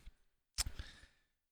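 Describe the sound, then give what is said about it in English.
Faint keyboard typing while entering numbers for a quick calculation. A few soft scattered clicks are followed by a short pause and then a brisk cluster of keystrokes that fades away. “I'm trying to do my quick little typing skills. I'm not going to mess up this number.”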